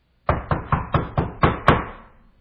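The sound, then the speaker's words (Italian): Loud knocking on a door: seven hard, evenly spaced raps in a quick steady rhythm, the last one the sharpest, each ringing briefly before a short fading tail. “Bussò con forza alla porta”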